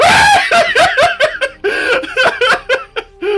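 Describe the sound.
A voice imitates a goat scream with a rapid string of loud, wavering, bleat-like cries that break off and restart many times with no other sound around them.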